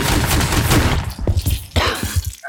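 Pistol shots ring out as a quick series of sharp, loud bangs, several in a row after a dense burst of noise, with no voices.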